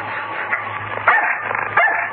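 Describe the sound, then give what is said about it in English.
A dog set on a man barks and yips in short, excited bursts. Two sharper barks stand out above a steady, muffled background. “Put the dog onto him.”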